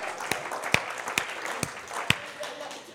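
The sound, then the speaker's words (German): Light applause from a small group, a soft patter of clapping with about five sharp, louder claps standing out at fairly even intervals, easing off slightly toward the end. “Hey, Applaus!”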